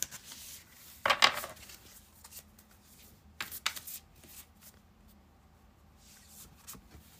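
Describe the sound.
A deck of oracle cards being shuffled and handled, heard as quick papery rustles and slaps in a few short bursts, with softer rubbing and shifting between them and no talking.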